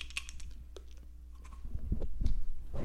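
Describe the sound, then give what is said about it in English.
A lid is screwed back onto a container, giving a series of small clicks and gritty twisting scrapes that grow denser and louder toward the end. “Do you hear that? It's me screwing the lid back on.”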